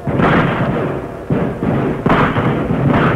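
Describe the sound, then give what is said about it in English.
Gunfire from a fight: a few heavy, booming reports with broad rumbling tails merge into a sustained, loud roar, with no voices. “Hey, man, that's a real fight. Yes. Looks like only one side is doing the shooting now, though.”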